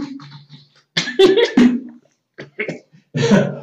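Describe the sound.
Dry-throated coughing and choking, heard as a few harsh, rough bursts separated by short pauses, with no clear words spoken.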